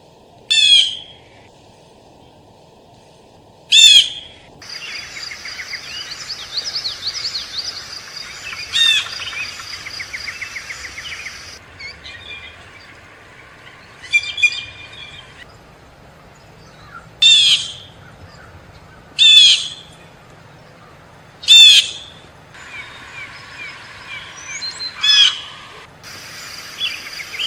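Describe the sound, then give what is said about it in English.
Harsh, scolding calls of a Steller's Jay come in a series of loud, separate bursts, with softer, raspy chatter filling the gaps between them. “And the mystery sound is the Steller's Jay. It is annoying and absolutely beautiful.”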